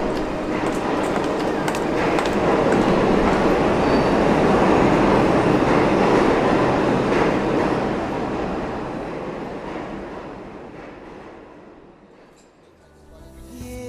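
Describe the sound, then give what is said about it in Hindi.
A train arrives at a station with a loud, dense rumble of wheels and carriages that swells early, holds, then gradually fades toward the end, where a brief low sound follows. “अच्छा अभी मैं चलती हूँ, train आ रही है।”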